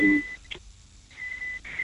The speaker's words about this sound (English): there's a terrible beeping in the background. Could you move around a little? I don't know, is it your phone or is there an alarm going off or something?